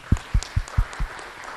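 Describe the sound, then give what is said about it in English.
Claps during a church service as the audience is prompted to applaud: five separate, evenly spaced, dull thumping claps over just over a second, fairly faint, with no voices. “That should be a clap, right?”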